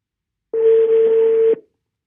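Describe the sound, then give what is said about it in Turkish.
A telephone call rings out with a single steady ringback tone about one second long, sounding alone against silence. “Bugün Cemil'i arıyorum.”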